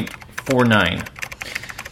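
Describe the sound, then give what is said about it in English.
Keystrokes on a computer keyboard as facts are typed into a rating program: many quick, irregular clicks, with a brief burst of voice partway through. “let me type some facts in the MTS computer here.”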